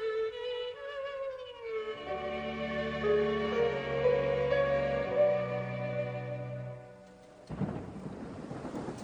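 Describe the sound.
Thunder and rain on a rainy evening: a long, low rolling rumble that sustains and then drops away before a louder burst of rushing noise near the end.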